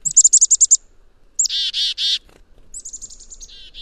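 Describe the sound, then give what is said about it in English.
A black-capped chickadee call opens with a rapid run of about seven high, bright chips, followed by three harsh, buzzy dee notes. Another run of chips then slides into more buzzy notes, clear and alone. “the black-capped chickadee call, that very charismatic chickadee-dee-dee”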